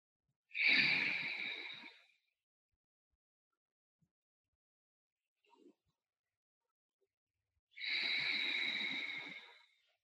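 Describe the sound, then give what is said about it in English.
Deep, slow breathing during a guided meditation: two long, airy breaths, each stretching over about a second and a half, separated by a long near-silent pause. Both are soft and heard on their own, without talk. “Give it 3 more breaths in, bringing in positive energy, out, pulling out any negative energy from this space.”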